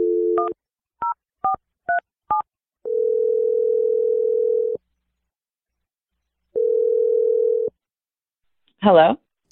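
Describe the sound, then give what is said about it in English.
A telephone number is keyed in with five short two-note keypad beeps, then two long, steady low tones separated by silence, and a brief voice is heard at the very end. “I'm going to dial the number right now. Here we go.”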